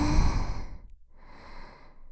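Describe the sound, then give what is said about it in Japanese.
A deep breath drawn in during a guided relaxation exercise, heard as a loud, breathy rush that tapers off, followed after a brief pause by a second, softer and longer breath. “はい、深呼吸してください。吸って”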